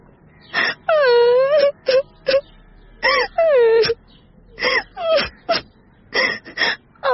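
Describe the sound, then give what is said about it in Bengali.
A woman cries openly, with wailing, moaning sobs that waver and fall in pitch, broken by short gasping breaths between the louder bursts. “হরিপ্রিয়াকে এরকম বাঁকা পথে প্রশ্ন করায় সরল মেয়েটি আর সংযম রক্ষা করতে পারল না, অঝরে কাঁদতে শুরু করল।”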